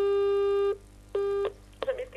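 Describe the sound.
Telephone call signal on a line to a city office, two steady single-pitch tones, the first long and the second shorter, separated by a pause, followed by a brief voice-like sound.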